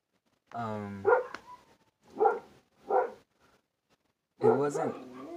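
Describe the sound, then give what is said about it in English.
A dog barks a few times in short, separate, loud bursts, with a person talking before and after the barks. “sorry, that's a dog”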